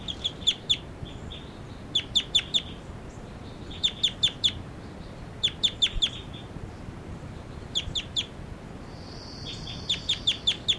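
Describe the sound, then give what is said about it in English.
A bird gives high, sharp flight calls in rapid clusters of a few clipped notes, repeated at irregular intervals over a faint steady background hiss. “This is bird 40. Giving flight calls.”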